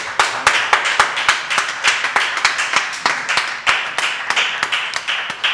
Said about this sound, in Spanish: Jóvenes, un aplauso.